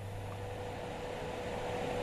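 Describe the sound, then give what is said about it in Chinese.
A projector's cooling fan whirs steadily in a meeting room, a smooth, even hiss layered over a faint low hum, holding at one level throughout without any voices. “会议室里只剩投影仪的风扇呼呼作响”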